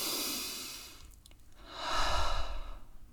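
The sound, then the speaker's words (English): A deep breath, drawn slowly and let out again: two broad, breathy swells of airy hiss with a softer gap between them. No one speaks. “take a deep breath, which according to my little clock on my recording software, just took me 2 seconds.”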